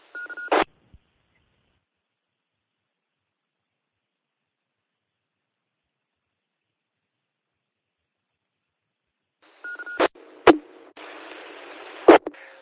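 Amateur radio repeater keyed open with no modulation during a YO radio contest net: a brief squelch burst, long silence, then a few sharp clicks and short tones, a stretch of steady hiss, and a final loud burst.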